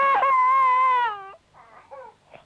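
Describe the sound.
A small child cries after running into a pillar and bumping into it. One long, loud, high wail breaks off into a few shorter, fainter sobbing whimpers.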